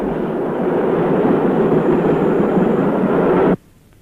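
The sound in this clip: A passenger train runs on rails, giving a steady, loud, roaring rumble that holds evenly for several seconds and then cuts off abruptly, leaving near silence.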